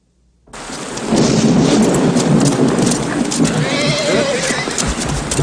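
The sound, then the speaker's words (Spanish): A thunderstorm with heavy rain in a film scene, along with a horse. After a brief silence, a loud, steady wash of rain and rumbling thunder sets in, and a horse whinnies partway through. “Va a llover”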